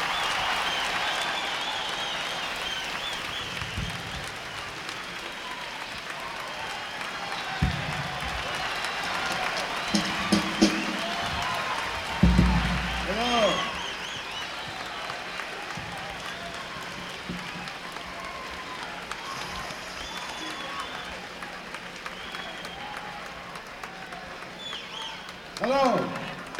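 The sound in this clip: Audience applause and crowd noise for the Mothers of Invention, a rock band, at a stadium concert. The sustained clapping and cheering carry scattered shouts and voices, with a few louder bursts rising out of the din.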